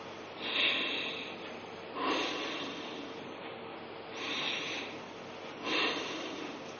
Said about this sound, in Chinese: 就是嘴巴自然关闭，牙齿打开，舌头悬起，用鼻子进行强力的吸入和强力的吐出。我做一遍大家看。